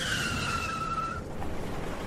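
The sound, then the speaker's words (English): Car tires squeal sharply through a hard right turn on a dark, unlit road. A high, sustained screech lasts about a second over loud engine and road rumble, then cuts off while the rumble carries on. “Turn right here. There's no road to... Right turn. Now.”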